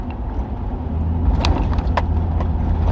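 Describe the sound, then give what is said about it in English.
A car drives through town with a deep, steady engine and road rumble that grows slightly louder, while a few faint ticks and knocks come through above it. “Driving through town.”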